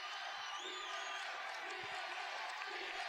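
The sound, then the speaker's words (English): Crowd cheering at a live TNA/Impact professional wrestling show: a sustained, fairly quiet roar of many voices with scattered whoops and shouts rising out of it. “You know, this actually sounds like an actually live hype crowd.”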